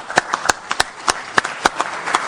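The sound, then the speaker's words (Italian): Sparse hand claps greet an Italian senator as he is welcomed at an event. The claps come as a thin, uneven series of separate sharp strikes rather than a full ovation, with short gaps between them. “diamo il benvenuto al senatore Gianmarco Centinaio, che ringraziamo con un applauso.”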